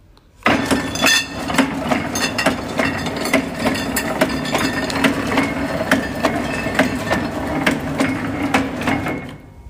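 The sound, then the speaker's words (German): A bottle labelling machine runs, its conveyor belt carrying bottles one after another to a glue roller that applies labels. After a brief quiet start it sets off abruptly into a steady mechanical clatter with many rapid glassy clinks throughout. “Knopf hier drücke, dann springt das Band an und bewegt die Flaschen der Reihe nach auf eine Walze zu und über diese Walze werden die Etiketten mit Leim auf die Flaschen angebracht. Ich drücke jetzt mal den Knopf.”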